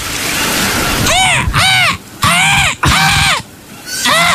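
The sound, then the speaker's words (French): A person's voice imitates a seagull's cry with a series of loud, high, arching squawks, several in quick succession, over a constant hissing background. “Toi devoir faire cri de la mouette. Moi, mouette.”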